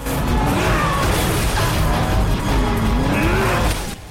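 A Nissan 350Z races at full speed around the bends of a road, its engine roaring loud and continuously with wavering pitch, then dropping away at the end.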